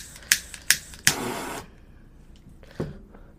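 A torch lighter clicks repeatedly but fails to light. There are several sharp, bright clicks at uneven intervals, and one is followed by a short hissing burst of gas before the quiet returns.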